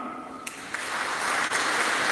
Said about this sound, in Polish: oddajmy Mu chwałę oklaskami